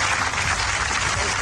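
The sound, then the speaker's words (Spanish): Applause from an audience, a dense, even patter of many hands clapping at a steady moderate level across the brief stretch. “Este aplauso lo hacemos extensivo, por supuesto, a la selección, que parece que ha ganado.”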